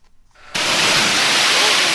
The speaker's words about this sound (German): Mit einem Hochdruckreiniger spritzen 2 Arbeiter eine frisch betonierte Mauer ab.